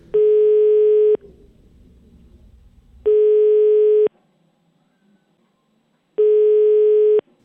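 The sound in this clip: The ringback tone of an outgoing telephone call: three steady, loud one-second beeps at the same pitch, each separated by about two seconds of silence.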